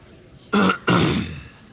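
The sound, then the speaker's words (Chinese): A man clears his throat at a court hearing: two short, harsh bursts in quick succession, the second longer and trailing away, loud and alone with no talk. “邓布利多清了清嗓子，威森加摩又安静了下来。”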